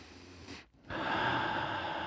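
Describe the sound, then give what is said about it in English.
A deep breath drawn during a guided relaxation exercise with fingers interlocked and folded to the heart: a short, sharp inhale, a brief pause, then a long, steady, fairly loud exhale. “Give me a couple deep breaths for me.”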